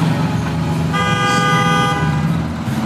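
Street traffic with a car horn on a busy city street. One sustained honk of about a second rises over a continuous rumble of passing vehicles.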